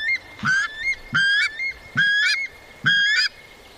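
Calls of a weka, a bird calling to its mate while holding food in its mouth: four loud, nasal, honking calls, each rising slightly in pitch, spaced evenly with short gaps between.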